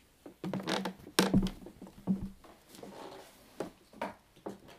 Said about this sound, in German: Kannst du es auspacken, mein Päckchen?